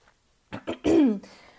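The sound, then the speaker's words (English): A person clearing their throat because a blueberry seed is stuck in it: two short, breathy rasps followed by a longer, voiced grunt, then quiet. “Sorry, I just had some blueberries and I think like a little blueberry seed is stuck in my throat.”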